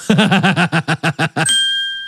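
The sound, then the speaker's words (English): A bell sound effect rings out as a single bright ding that sustains and slowly fades, following a quick rhythmic run of short pulsing bursts. “That deserves a bell”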